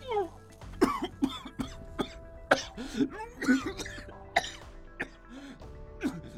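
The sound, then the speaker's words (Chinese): Harsh, repeated coughing from a person who has inhaled ammonia gas, with a burning throat, dizziness and nausea; many quiet, rough bursts in an irregular, uncontrollable run with no pause for speech. “他已经吸入了不少氨气，喉咙里火烧火燎的痛，头晕恶心，且止不住的咳嗽。”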